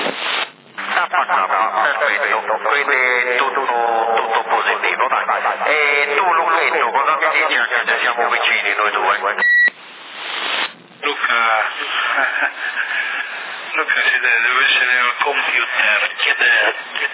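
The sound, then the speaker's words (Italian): Voice transmission over a CB radio link in Sassari, with amplification and echo chamber on the signal: narrow-band, somewhat shrill talk that runs almost continuously, broken by a few brief drops in the carrier. “modulazione abbastanza squillante, buona, si sente che c'è un'amplificazione e un po' di camera eco.”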